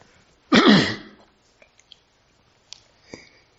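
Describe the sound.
A single rough throat clearing during a Bible reading: one loud, raspy burst under a second long, followed by a few faint mouth clicks and soft noises.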